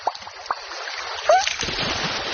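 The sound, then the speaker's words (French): A cuddly toy splashes into water with a single soft splash, and steady burbling, running water continues afterward. “C'est un poisson qui vient de sauter dans l'eau? Mais non, c'est mon doudou.”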